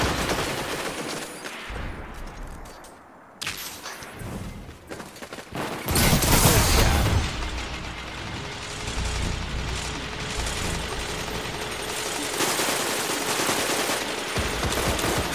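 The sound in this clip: Gunfire in the video game shooter Destiny 2 during a multiplayer match: rapid bursts of automatic fire and loud blasts in a dense, busy mix, without any talk.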